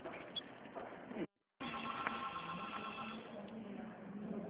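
A landline telephone rings over a dense, muffled bed of noise. A brief silent break comes early, then a steady tonal ringing carries on to the end.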